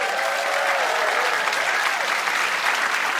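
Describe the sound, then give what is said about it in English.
A live audience at a stage show applauds the guests. The applause is full and continuous, and its volume stays even for the whole stretch. “Can we give one more hand to all our guests tonight?”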